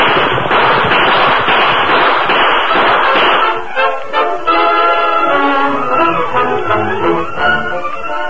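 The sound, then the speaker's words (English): A rapid gunfire volley, a radio-drama sound effect of riders firing at pursuing outlaws, crackles as a dense, loud run of shots for the first few seconds, then gives way to a steadier, tonal sound. “We'll give them another volley from here. Keep shooting as you ride, Tonto.”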